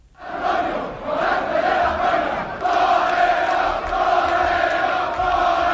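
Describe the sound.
Crowd cheering in Seville as bullfighter Morante de la Puebla is carried on shoulders toward the Hotel Colón, a sustained roar of many voices that swells early and grows louder partway through.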